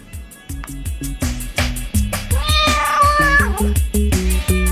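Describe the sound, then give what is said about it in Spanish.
A big cat meows many times in a quick series of loud calls, some stretched into wavering, wailing cries in the middle, with no other sounds. “El gatazo le arrancó el pelo a mechones, le sacudió el cogote, lo despellejó y se fue maullando bajito.”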